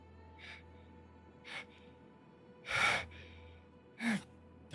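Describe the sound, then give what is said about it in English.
Heavy, panicked breathing: several short, sharp breaths and gasps come in bursts separated by quiet pauses, faint overall. “you're breathing heavy. Can't seem to catch enough breath.”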